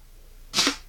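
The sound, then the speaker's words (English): A dart strikes and sticks in a dartboard with a single short, dull thud, heard alone against quiet background hiss. “Oh, I heard it. I heard it hit. I heard it stick. Yeah, it did. I can't see, but I did hear it stick. The dart.”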